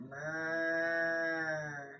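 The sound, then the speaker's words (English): A human voice imitates a cow's moo as one long, steady, low drone, held evenly for about two seconds and fairly quiet, with no other sounds around it. “mooing at cows.”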